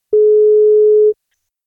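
Telephone ringback tone heard while calling someone: a single loud, steady, pure mid-pitched beep lasting about one second, alone, then silence.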